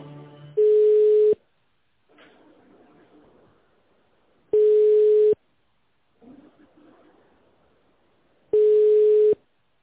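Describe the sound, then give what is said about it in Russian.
A telephone line tone plays while a call is being transferred: three identical steady mid-pitched beeps, each under a second long, repeat at even intervals, with faint line noise in the gaps between them. “Сейчас я вас переведу на специалиста.”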